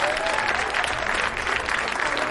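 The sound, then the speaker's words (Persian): Engineers in an audience clap for themselves with a continuous spread of hand claps that stays at an even level throughout. “به به به آقایین مهندس اینجا یه دست بزنن خودشون مهندس ها.”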